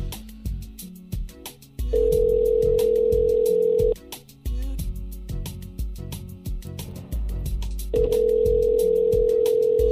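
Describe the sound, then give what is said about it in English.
An outgoing telephone call rings out on the line. Two long, steady mid-pitched ringback tones each last about two seconds, separated by a silent gap of several seconds, over a busy rhythmic background. “Oops, I didn't know you're dialing already.”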